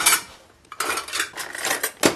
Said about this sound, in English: Chris Kimball rustles through my cabinets and drawers.